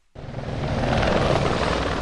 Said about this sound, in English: A helicopter swoops into the Mondego River Gorge just a few miles from Coimbra, Portugal's third-largest city.